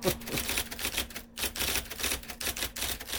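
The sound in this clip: Two-finger typing on keys, a steady run of many sharp clacks with uneven spacing and one brief pause, with no voices.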